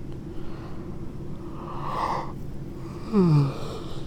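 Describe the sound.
A person yawns: a long, breathy inhale swells, then a brief voiced groan slides downward in pitch, over a steady low background noise.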